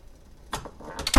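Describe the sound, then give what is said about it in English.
A door slams with a sharp, loud bang at the very end, after two fainter knocks and rattles. “slamming door about to occur.”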